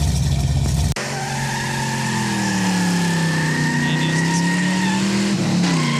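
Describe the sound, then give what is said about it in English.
A car engine hums loud and steady with a whining tone that wavers slightly in pitch. It starts abruptly after a short, lower rumble and holds without talk. “Number six, a car engine humming.”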